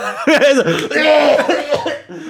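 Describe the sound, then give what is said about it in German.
Coughing and sputtering from someone choking on a Jaffa Cake that went down the throat while laughing. A burst of strained, voiced coughs runs together with laugh-like sounds, stays loud, then trails off near the end. “Nein, ich musste lachen und dann ist ein Jaffa Cake in meinen Rachenraum gekommen.”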